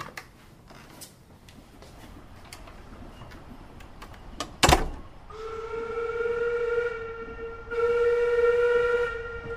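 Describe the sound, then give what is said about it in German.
Steam train at a station: a few scattered clanks and clicks, then one sharp loud bang, followed by two long, steady high whistle blasts with a brief gap between them, the second slightly louder. “Alles einsteigen. Der Hogwarts Express fährt in 2 Minuten ab.”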